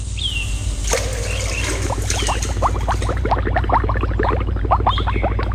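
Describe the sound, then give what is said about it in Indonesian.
Soft, continuous trickling and bubbling of cold river water as someone soaks in it, made of many quick little watery blips at an even, moderate level. “Baiknya aku berendam saja agar segar badanku. Ah, alangkah nikmatnya berendam di air dingin.”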